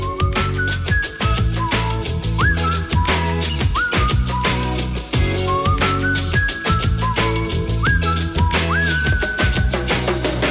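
A whistled melody rides on top of a 1992 pop song. It rises and slides in short repeated phrases over steady drums and full band backing, loud throughout.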